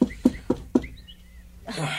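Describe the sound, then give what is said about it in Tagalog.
Knocking on a door: four quick, evenly spaced raps, with faint bird chirps between them and a soft rustle afterward. “May kumakatok sa pinto.”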